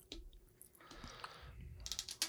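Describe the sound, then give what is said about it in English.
Peeling a price tag sticker off an object: a faint, crackly tearing rasp in the middle, with small clicks and taps on either side. “Let me peel it. It's got a fucking price tag on it.”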